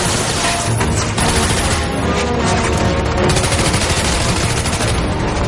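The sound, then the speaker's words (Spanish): Loud, relentless gunfire as Watson shoots at pursuing guards in the film Sherlock Holmes: A Game of Shadows. Rapid machine-gun bursts and many overlapping shots form a continuous barrage with crashing impacts. “Watson se gira y dispara a los guardias que les persiguen.”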